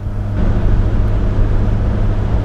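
Steady, heavy low rumble of a car driving over an uneven road into Salisbury, a continuous dense drone with no clear breaks.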